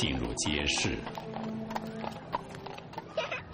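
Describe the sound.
Horse hooves clip-clop as a fine horse is ridden into a market: many sharp, quick clops in a steady, lively rhythm over a continuous low background hum.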